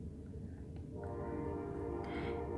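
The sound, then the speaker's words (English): A train passes with a faint, low rumble, and a steady horn tone enters about a second in and holds to the end. “That's the train, Daddy. That's the train.”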